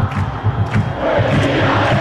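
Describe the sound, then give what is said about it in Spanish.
A Rosario Central crowd in a stadium rises and cheers. The roar pulses at first, then swells after about a second into a loud, sustained wall of crowd noise. “Y ahí Di María pide el apoyo de la gente. Y ahí se levanta el público de Central, sí.”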